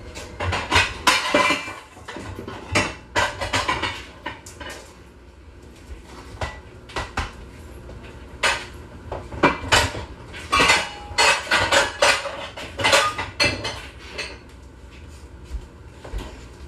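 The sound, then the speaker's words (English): Repeated clanks and clatters of a 9 by 13 pan being taken out and handled, many sharp knocks and scrapes arriving in irregular bursts, with no talk. “We're going to go ahead and get our pan. You're going to need about a 9 by 13.”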